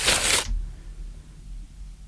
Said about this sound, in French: il faut la tenir comme ça et racler bien au fond pour ramener le ciment qui s'est pas bien mélangé au sable et à l'eau.